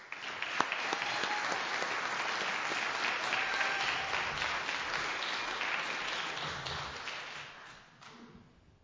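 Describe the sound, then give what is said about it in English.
Applause from the audience at a recovery group meeting welcoming the evening's first speaker: dense, sustained clapping lasting about eight seconds before thinning out and fading at the end. “please give us a warm welcome for Pelle.”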